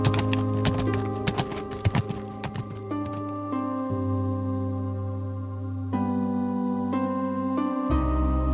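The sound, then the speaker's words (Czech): Horses' hooves clip-clop as riders set off: a few sharp, irregular knocks in the opening seconds, heard over sustained musical tones that then carry on alone with shifting low notes. “Vezmeme si jen nějakého pěkného koně tady pro mého sluhu Vinska a budeme pokračovat za dalším dobrodružstvím. Šťastnou cestu, princi. A jeli se svým sluhou dál.”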